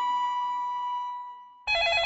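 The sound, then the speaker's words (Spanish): A telephone ringing with a steady, bright electronic tone that slowly fades, then a louder, buzzier ring bursts in near the end. “¿El teléfono? ¿Quién puede ser?”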